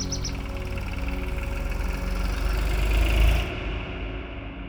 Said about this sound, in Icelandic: Það síðasta sem ég mann er að traktor er á leiðinni til mín.